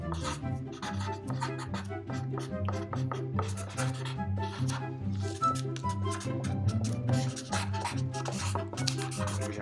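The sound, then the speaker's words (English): Sharpie markers squeak and scratch across paper during a timed drawing challenge, with paper rustling. Many quick, irregular strokes run steadily over a soft, repeating low-pitched background. “there's just gonna be a little bit of silence when you hear ruffling of paper, the squeaking of Sharpies for a little bit.”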